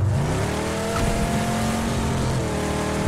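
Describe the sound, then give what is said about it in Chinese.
Car engine noise in the PUBG video game: a loud, steady droning engine that fills the whole clip with no pauses and no speech. “我觉得这个车的噪音好大，我听不到人说话了。”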